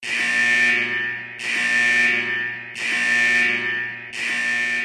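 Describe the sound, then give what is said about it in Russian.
A blaring security alarm set off by a counterfeit chip sounds in four long, loud, harsh buzzing bursts, each running almost into the next with only brief dips between them. “«Внимание! Поддельный чип!» Взревевший сигнал тревоги произвел эффект вылитого на голову ушата с холодной водой.”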